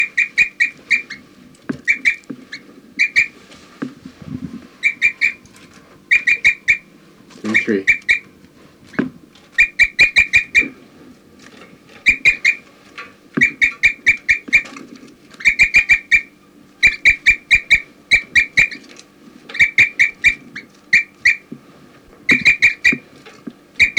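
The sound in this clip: Bird flight calls and chirps from a field recording of birds: many short, high chirps come in clustered bursts throughout, over a low, steady background hum with occasional sharp clicks.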